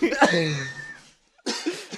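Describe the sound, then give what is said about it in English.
Coughing from a person in a lively conversation: a voiced, throaty burst that tails off, then a short silence and a rough, breathy cough. “God damn it, I keep coughing.”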